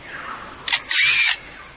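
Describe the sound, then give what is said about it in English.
A male bird in a forest mimics a camera with a motor drive: a brief bright whirring burst, then a longer buzzy mechanical whir, loud and alone. “In his attempt to outsing his rivals, incorporates other sounds that he hears in the forest. That was a camera shutter. And now a camera with a motor drive.”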